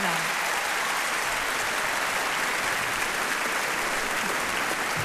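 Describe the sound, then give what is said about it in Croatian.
Dense, sustained applause from a concert audience after a live performance of a film score, steady and loud from start to finish, with no voices on top. “Molim vas za još jedan pljesak za Anne.”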